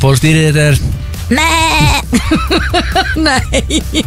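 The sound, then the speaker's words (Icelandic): A person imitates a sheep's bleat with loud, wavering, nasal calls, first a couple of long drawn-out bleats, then a quick run of short, stuttering bleats with no plain talk. “Ég jarma fyrir ykkur næstu helgi.”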